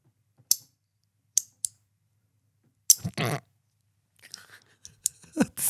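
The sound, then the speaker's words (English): Sharp, isolated clicks of a control pressed straight down without gliding, a few short snaps separated by silence, followed by softer scattered noises. “Now just listen. I'll just do a straight up click.”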